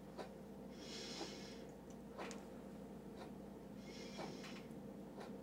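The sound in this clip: A patient breathes deeply during a medical chest examination. A few slow, faint breaths rise and fall as soft airy swells over a low steady background hum, and no one speaks.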